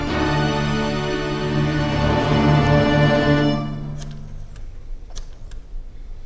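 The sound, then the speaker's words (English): A telephone being dialed gives a few sharp, faint clicks after a loud, sustained buzzing drone fades away. “Operator, I've been dialing Murray Hill 70093 now for the last 3/4 of an hour,”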